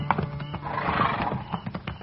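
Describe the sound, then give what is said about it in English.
Horses at a hunters' camp near dusk, one giving a drawn-out, wavering neigh in the middle, with soft thuds around it, moderately loud and thin in tone. “He had mules. This man's got horses.”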